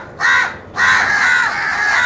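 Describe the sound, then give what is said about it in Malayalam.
Harsh crow caws ring out alone: a short rasping call, then a longer, drawn-out caw, both loud and grating. “ഒരു കാക്കയും ഭക്ഷണം കണ്ടാൽ ഒറ്റയ്ക്ക് കഴിക്കുകയില്ല, തൻ്റെ സഹജീവികളെ കൂടി വിളിക്കും.”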